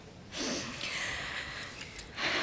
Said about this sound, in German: Tief ein- und ausatmen. Nochmal.